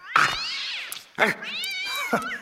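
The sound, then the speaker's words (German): A cat meows three times in loud, high, drawn-out wavering cries. The first meow is the longest, and the calls follow each other closely with no talk. “Ein Katzenvieh!”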